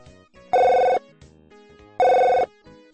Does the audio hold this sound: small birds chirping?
no